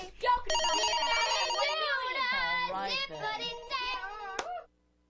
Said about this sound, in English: the phone's ringing.